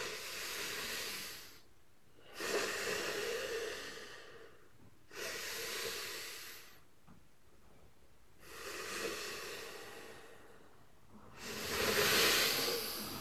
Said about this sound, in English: Take a nice diaphragmatic nostril breath. With my blocked nose.